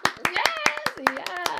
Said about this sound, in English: Give us applause.